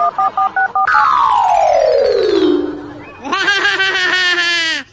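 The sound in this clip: Four short dual-tone beeps from a telephone keypad being dialed, followed by a long, loud synthetic tone that slides downward and then a wobbling buzzy electronic effect.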